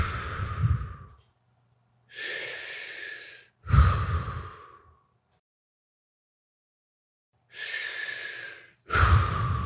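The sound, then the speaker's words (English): Deep, forceful breathing during breath work: five loud inhales and exhales, the first three close together, then a long silent pause before the last two. No talking is heard. “Just doing breath work.”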